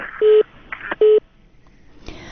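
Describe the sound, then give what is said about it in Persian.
A telephone line tone sounds after a caller's call drops: two short, steady mid-pitched beeps separated by a brief gap over a faint hiss, followed by a burst of noise at the end. “تماس تلفنی ما با این شنونده قطع شد.”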